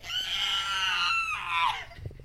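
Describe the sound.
A human voice imitates a shrill screech, giving one sustained, strained, high-pitched cry of about two seconds that wavers slightly and drops in pitch at the end.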